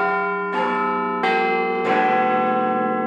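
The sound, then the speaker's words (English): Big Ben's clock bells at the Houses of Parliament in London ring the Westminster Chimes: four resonant bell notes struck in sequence, each with a long ringing tone that overlaps the next, heard without voices. “the famous Big Ben clock at the Houses of Parliament in London plays a pre-programmed sequence of notes every quarter hour, known as the Westminster Chimes.”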